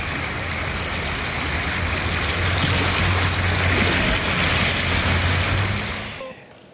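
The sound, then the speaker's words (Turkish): Floodwater rushes through submerged streets after heavy rain, sweeping vehicles along. A loud, steady roar of churning water holds throughout, then drops away sharply near the end. “Yağışlar nedeniyle yollar, caddeler su altına gömülmüş durumda. İşte araçların sürüklendiği o anları ekranlara getiriyoruz.”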